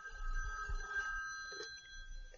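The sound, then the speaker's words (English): A telephone bell rings in a steady, sustained trill, faint over a low background rumble. “their phone is ringing and they should answer it”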